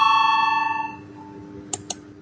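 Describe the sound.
An electronic bell rings in a parliamentary chamber to call members to a vote. A sustained, bright tone fades out over about a second, followed by two short clicks.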